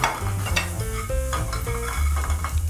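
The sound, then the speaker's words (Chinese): Sizzling and stirring as ingredients are stir-fried in a second pan, with a utensil scraping repeatedly over a steady, crackling sizzle and no talk. “再取一个锅子，把这些炒一下。”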